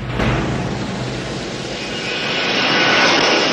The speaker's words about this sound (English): The silhouette of a plane coming into land across the moon.